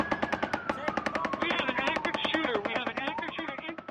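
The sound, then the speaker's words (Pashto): Rapid automatic gunfire at an outdoor local music gathering in Las Vegas: many sharp shots in a fast, steady rhythm, continuing under a person talking. “د لاس ویګاس په ښار کې خلک د محلي موسیقي اوریدو ته راټول شي ول چې یو ناڅاپه ډزې وشولې.”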